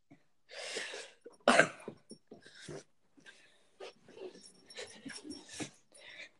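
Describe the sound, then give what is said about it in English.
A dog makes a few short, breathy, snorting vocal bursts, with one loud burst near the start followed by quieter scattered snuffles and pauses. “Oh, hi, dog.”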